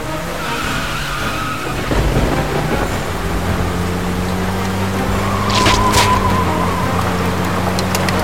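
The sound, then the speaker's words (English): Van driving along, its engine making a steady low drone with a constant hum throughout and a brief higher hiss near the end. “Following the sound of the van!”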